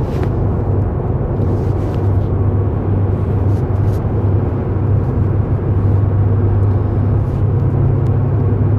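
Steady, loud engine and road rumble fills a car interior while driving, a constant low drone with faint higher hiss throughout and no talking.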